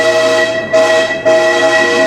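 A train horn sounds a loud, sustained multi-tone chord that swells in two quick pulses and holds steady throughout, with no voices.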